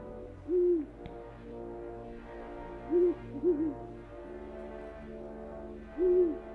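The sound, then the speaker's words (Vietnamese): An owl hoots at night: a few low, soft hoots spaced several seconds apart, one pair close together, over a quiet background with a faint steady hum. “Tiếng cú mèo lúc xa lúc gần như vọng về từ một cõi hư vô lắm.”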